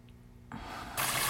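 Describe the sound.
A jet of water runs into a bathtub, a rushing hiss that starts soft and grows louder in two sudden steps, with no voices.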